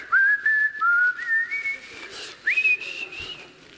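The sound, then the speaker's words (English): Whistling of a hymn tune: a clear, loud melody of several sustained notes that step upward between phrases, carried alone with no talk over it. “So when that event with traffic happened, did you start whistling, Jesus loves me, this I know?”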